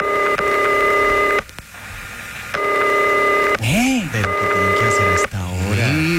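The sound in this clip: Telephone tones from a call that goes unanswered: three long, steady, buzzing tone bursts, with voices speaking in the gaps between them.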